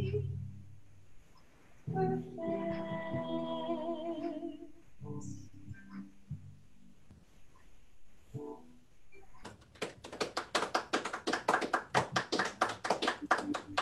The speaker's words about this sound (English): All three are our lovely audience of three. Is clapping for you.